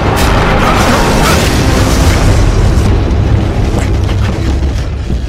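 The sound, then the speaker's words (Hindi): Cannon shells explode during an artillery barrage in a battle. The blasts are loud and deep and merge into a continuous rumbling roar that eases slightly toward the end. “कुछ गोले सीधे हमारी तरफ आ रहे हैं, तैयार हो जाओ।”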